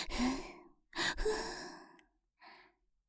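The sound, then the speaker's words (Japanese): Forceful exhaling breaths during a breathing exercise: two long, hissing out-breaths, then a shorter and fainter third, separated by brief pauses. “で、目いっぱい息を吐くの。ほら、ふぅ、ふぅ、ありったけの息を吐きなさい。”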